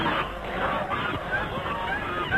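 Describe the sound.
A flock of white geese honks in a dense, continuous clamor of overlapping calls, with a murmur of voices beneath.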